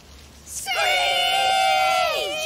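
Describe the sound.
A group of people screech together on a count of three, imitating a bird of prey. It is one loud, sustained, high-pitched cry of overlapping voices that begins after a quiet moment and drops in pitch as it fades out.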